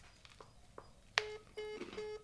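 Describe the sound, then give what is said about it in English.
Touch-tone dialing on an iPhone calling the operator: a sharp tap, then a few short, clear beeps in quick succession, faint and with no voices. “I'm dialing the operator.”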